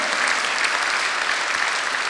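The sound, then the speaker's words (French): Dense applause from a church audience, an even roar of many hands clapping that holds steady for the whole span with no voices over it. “Applaudissons le Seigneur qui veut.”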